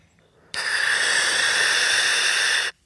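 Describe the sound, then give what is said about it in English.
Airy hiss of a person breathing in through the mouth from a trigger-activated, grapefruit-flavored inhaler: one continuous, steady inhale of about two seconds that starts and stops abruptly, heard alone. “Then you press the trigger down to activate the flow and you breathe normally through the mouth.”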